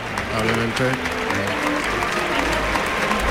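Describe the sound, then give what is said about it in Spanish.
A bullfight crowd gives a Peruvian matador a sustained ovation, a dense, even wash of clapping that holds steady throughout while a voice talks over it. “pues hay una ovación”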